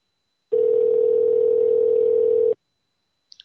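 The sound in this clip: Telephone dial tone heard while calling back a number given for a pizza order: a steady, loud, unbroken tone lasting about two seconds, stopping abruptly, followed by a few faint short beeps.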